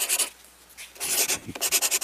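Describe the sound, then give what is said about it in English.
A pencil scratches across paper as a journal entry is written. A few brisk, raspy strokes come first, then a short quiet pause, then a run of quick, rhythmic scratching strokes. “I want to make your first journal entry here. Oh. It's a pencil.”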